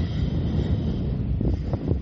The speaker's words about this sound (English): really windy out here today and really hazy.